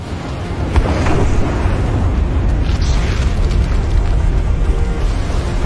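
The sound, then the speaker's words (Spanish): Volcán de Fuego's crater breaking open in a massive eruption that hurls out rocks, heard as a loud, continuous deep roaring rumble with dense low-end noise that holds steady throughout. “El cráter del volcán de fuego se rompe.”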